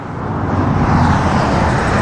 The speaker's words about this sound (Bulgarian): от автомагистрала Тракия, където трафикът е изключително интензивен и в този час